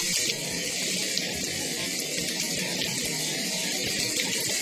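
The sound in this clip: Water pours into a pan of stir-fried chicken pieces with curry paste, a steady, continuous rushing and splashing that holds at an even level for the whole stretch, with no voices.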